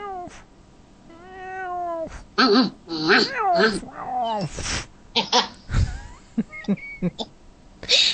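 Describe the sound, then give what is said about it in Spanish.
A cat meows in a few drawn-out, rising-and-falling calls at the start, followed by people talking. “Corre ese gato de aquí, ¿eh?”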